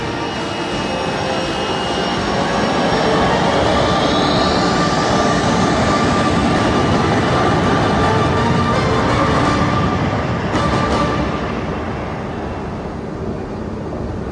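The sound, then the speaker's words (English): Loud jet-like aircraft roar as Vulture 7 lifts off over an airstrip. A steady, dense engine rush fills the whole stretch, with a thin whine climbing partway through, and the noise eases slightly near the end. “Tacker ordered the pilot to lift. The pilot acknowledged, and Vulture 7 ascended over the airstrip.”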